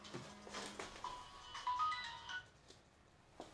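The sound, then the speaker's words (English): A mobile phone ringtone goes off: a faint, short electronic melody of bright sustained tones lasting about a second, with a few soft knocks around it and no talking. “Sorry, that was just my phone going off there.”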